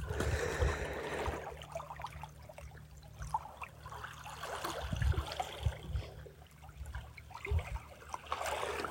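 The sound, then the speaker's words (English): Water washes and trickles over a rocky beach as the tide comes in, a steady, continuous wet churning with a few soft low bumps along the way. “I think the tide's coming in. I'm walking now up along the beach, and I've just stepped up onto a rocky outcrop.”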